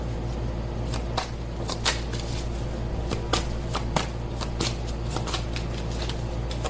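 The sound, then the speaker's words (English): A deck of playing cards being shuffled: a continuous papery riffle with many sharp flicks and snaps scattered through it at a steady level, with no voices. “I'm going to split this in three. Some cards going.”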